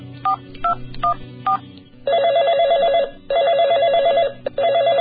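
A telephone ringing: four short electronic beeps, then a loud warbling electronic trill that repeats in a steady pattern of about one-second bursts separated by brief pauses, with no voices.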